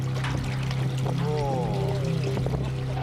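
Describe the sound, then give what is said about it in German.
Water flows through a hose after plugs are pulled from both ends, a steady pouring and trickling wash that runs throughout, with a voice heard briefly over it. “Wir ziehen den Stöpsel am einen Ende und den am anderen Ende des Schlauchs.”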